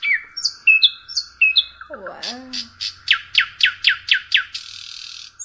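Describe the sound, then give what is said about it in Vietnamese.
Song of the hwamei bird: varied clear whistled phrases lead into a lower, burbling call, then a fast run of repeated high notes, each sharply slurred downward. No talk. “Còn chim họa mi thường hát ban đêm. Đây là tiếng chim họa mi nè.”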